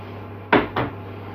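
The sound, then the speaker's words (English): Egg being cracked into a flour mixture: two quick, sharp knocks against a hard edge in close succession, loud against a quiet background. “Second egg. Trying not to get any shell in the mixture”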